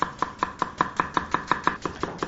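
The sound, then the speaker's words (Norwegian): A knife finely chops onion in a brisk, even series of sharp taps, roughly five strikes per second, with no talking. “Så bare finhakk om i løken til soya-nøttesmøret.”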